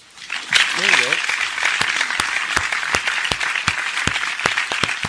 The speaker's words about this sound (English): Where's the applause drop? Where's that shit at?